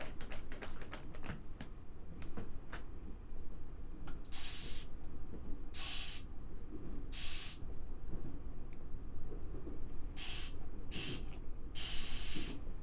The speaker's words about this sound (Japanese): 頭皮マッサージを始めます。こちらのマッサージ用のスプレーを頭皮にかけて、